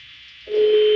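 Telephone tone on an outgoing call that goes unanswered: a steady electronic tone, joined about halfway by a second, lower and louder tone.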